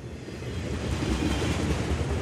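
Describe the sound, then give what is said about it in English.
A 1949 passenger train travelling to Chicago gives a steady, continuous rumbling roar with a faint rolling clatter. The sound is even and unbroken, and no voices are heard. “It's 1949, and Vanderplug is on a train to Chicago.”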